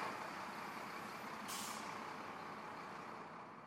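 A truck driving out through a gate, loaded and secured with chains and bungee cords, gives a steady, broad engine rumble throughout, with a short hiss bursting out about midway.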